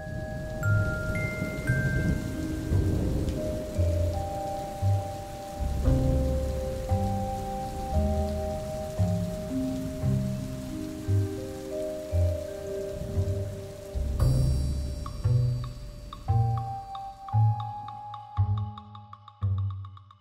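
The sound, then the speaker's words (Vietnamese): Heavy rain pours down in a steady, dense wash, with sustained melodic tones playing over it throughout. “Trời bắt đầu đổ mưa to”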